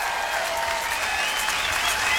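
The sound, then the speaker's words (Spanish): Applause sound effect: dense, even clapping that stays steady and fairly loud for the whole two seconds, with no voices over it. “¡Aplauso!”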